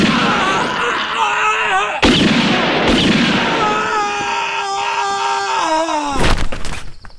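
A sharp gunshot fired as a start signal bursts out near the end, over a loud, steady din of sustained tones that runs throughout.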